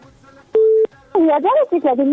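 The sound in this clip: A telephone number is dialled: a single steady keypad DTMF tone beeps for about a third of a second, then a person starts talking right after it.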